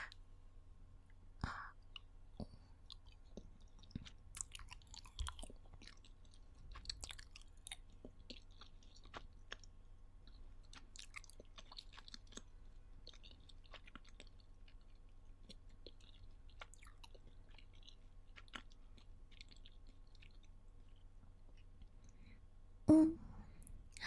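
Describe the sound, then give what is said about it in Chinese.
Faint chewing of a bite of sour food: soft wet clicks and smacks scattered throughout, with a sharper, louder crunch near the end. “难不成是怕我下毒吗？那我先吃一口好不好？”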